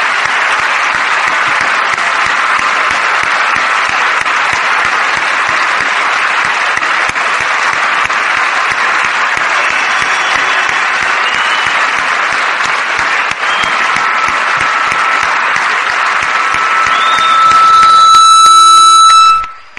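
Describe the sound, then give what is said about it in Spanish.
Audience applause fills the room at an event honoring women raising families alone: dense, steady, sustained clapping for nearly twenty seconds at an even loudness. It swells slightly near the end, where a brief horn-like tonal blast cuts through before it stops. “Vamos a darles un fuerte aplauso.”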